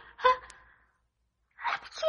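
A sneeze from a woman who caught a cold after freezing: two short, breathy bursts separated by about a second of silence, the second one sharper and louder.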